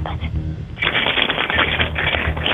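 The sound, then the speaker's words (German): Keys jingle as they are shaken by hand in a kitchen, a continuous bright metallic rattling clatter that starts abruptly and keeps going at steady loudness. “Und das beweise uns einmal bitte, indem du dir einen Schlüssel schnappst und einfach mal so rumklimperst mit dem Schlüssel.”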